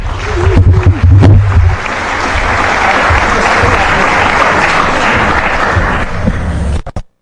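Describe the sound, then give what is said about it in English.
Loud audience applause welcoming the HoneyNet project speakers to a talk: dense, sustained clapping that holds steady for about seven seconds before cutting off abruptly. “So a warm welcome for the HoneyNet project.”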